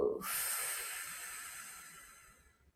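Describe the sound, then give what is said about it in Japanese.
A single long breath during a guided breathing exercise: an airy exhale that starts abruptly and loudly, then fades steadily over a couple of seconds, with no talk. “はい、吸って吐く。”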